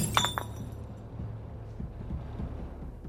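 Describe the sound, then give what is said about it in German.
Glass beer bottle smashing: a few sharp, bright clinks and shatters burst out in the first half-second, then only a faint low background remains. “Ich zerschlage die Flasche. Das Bier fließt auf den Boden.”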